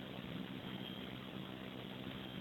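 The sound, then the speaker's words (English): Low droning music from a car parked outside a bowling alley at night, a muffled, continuous rumble with no clear beat, unchanging throughout. “the music coming from the car that's parked outside, and I guess that car is waiting for whoever works at the K&A shop”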